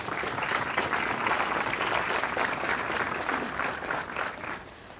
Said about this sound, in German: Deswegen möchte ich erstmal einen ganz großen Applaus, dass Sie heute sich getraut haben, hier dabei zu sein.